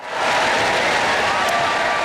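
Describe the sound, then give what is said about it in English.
Wild applause from a tennis crowd at the Wimbledon men's semi-final, a dense, steady wash of clapping that stays loud and unbroken throughout. “There it is, wild applause.”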